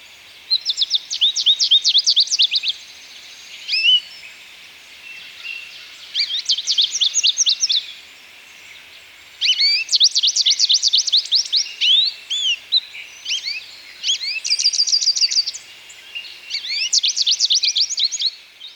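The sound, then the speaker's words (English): A willow goldfinch, the American goldfinch subspecies, sings several phrases of rapid, high, sweet twittering notes separated by short pauses, clear against a quiet background. “This is the willow goldfinch, and I was inspired to say this because one of them flew through my yard this week, and really amazing bird. They're sometimes called the American goldfinch, but the one we have here is a subspecies called the willow goldfinch.”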